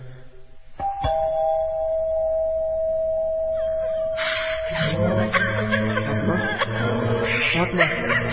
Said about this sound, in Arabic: هل ندق الجرس؟